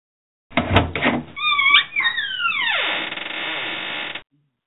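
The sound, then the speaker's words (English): Vault door opening sound effect: a couple of heavy thumps, then a whirring, sweeping tone that drops sharply in pitch and holds steady before cutting off abruptly. “when you hear the sound of the vault opening, can we open it again”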